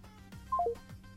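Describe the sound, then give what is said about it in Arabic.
A telephone line sounds a short, soft electronic tone after a caller's call drops: three quick beeps stepping down in pitch over a low hum. “واضح ان الاتصال قطع، ممكن ترجع تتصل تاني اللي كان بيتصل.”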